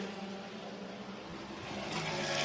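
An Acura prototype race car pulls away from its pit stop down the pit lane, its engine a faint, buzzing drone that swells steadily louder toward the end.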